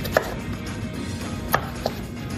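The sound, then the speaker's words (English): A knife clicks sharply as zucchini is cut into strips, three short strikes, the last two closer together, over a low, steady background. “let's cut up some zucchini and we'll try it again. Sorry. I'll give you some strips to cut, okay?”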